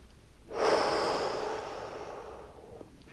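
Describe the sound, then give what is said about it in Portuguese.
A deep breath is taken during a guided breathing exercise: a single long, airy rush of breath starts abruptly, stays loud and then slowly tapers off over a few seconds. “Puxa o ar. Enche tudo que você pode. Prende.”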